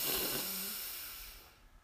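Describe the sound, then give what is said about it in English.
A long, deep breath drawn in during a guided breathing exercise, a soft breathy hiss that starts fairly strong and gradually fades away toward the end, with no talking over it. “We breathe in”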